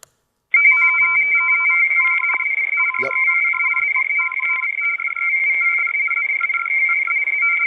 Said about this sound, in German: was ihr hier hört, ist klassischer Morsecode, so hörte sich das damals an, wenn einem U-Boot oder von einem U-Boot irgendeine Meldung rausgeschickt worden ist.